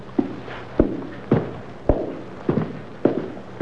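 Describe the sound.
Heavy footsteps climb a flight of stairs: about seven dull thuds at a slow, steady, even pace, with no talking.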